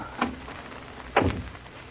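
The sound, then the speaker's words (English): A door closing, heard as two faint, soft knocks about a second apart, the second a heavier thud, against a quiet background. “Better close the door.”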